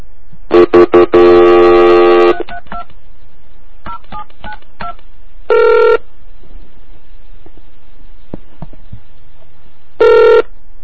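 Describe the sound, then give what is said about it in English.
Touch-tone dialing beeps into a modem line from a retro DOS-era setup: a few quick tones, then a longer sustained tone, followed by faint clicks and two separate later tone bursts. No voices. “And I'd call Cocotte, and I'd get some really cool noises. So I'm going to call one right now.”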